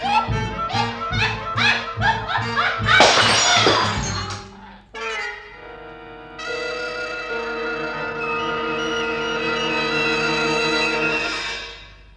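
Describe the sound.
A crystal glass bottle shatters in a dramatized scene: a sudden loud burst of crashing, tinkling noise after rhythmic musical hits. Music continues underneath, then carries on alone afterward with sustained tones.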